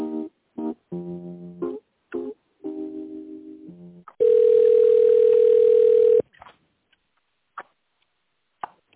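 A telephone ringing tone sounds as a call is put through: one long steady tone lasting about two seconds, preceded by a few short tonal beeps and followed by faint clicks.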